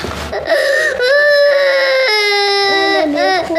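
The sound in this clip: A child crying in loud, drawn-out wailing sobs whose pitch wavers and breaks between long cries, with a short whimper near the start.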